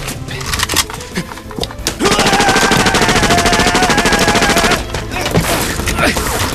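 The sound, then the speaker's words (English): Loud machine-gun cover fire: a few scattered shots, then a long, dense burst of rapid rattling fire that ends abruptly, followed by rougher, quieter noise. “Cover fire over their heads and get in the Huey.”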